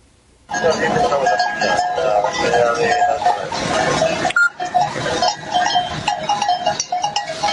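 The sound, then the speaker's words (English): Bells worn by a flock of about 1,300 sheep moving through a small town in Spain, a dense, continuous jangle mixed with constant bleating, loud throughout. “That's the sound of the cowbells that were attached to the sheep. Or I guess at that point you have to call them sheep bells, don't you?”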